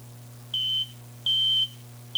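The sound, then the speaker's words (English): Beeping from a spaceship cockpit console: long, steady high-pitched tones, two full beeps and a third cut off at the end, over a constant low electrical hum. “The console beeped, rescuing him.”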